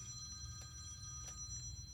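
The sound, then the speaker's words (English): A landline house phone rings with a steady, continuous electronic bell tone. The ringing is fairly faint and stays even, with no voices over it. “That's my phone. Is it your house phone? Yeah.”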